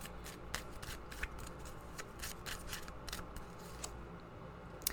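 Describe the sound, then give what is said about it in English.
Cards being shuffled and a tarot card pulled from the deck: a run of soft, papery snaps and rustles with a few sharper flicks, steady and fairly quiet, with no voices. “let's go ahead and pull a card, see what everybody who's listening needs to hear today.”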